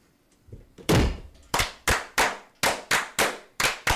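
Glasses bang together in unison on a table during a Masonic table fire, a loud series of heavy, evenly spaced thuds in a firm rhythm.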